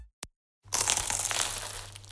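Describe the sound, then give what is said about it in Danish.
Someone bites into a crunchy croissant in Paris: a brief tick, a short silence, then a dense, crackly crunch that lasts over a second. “Dette er lyden af dig, der tager en bid af Paris lækreste croissant.”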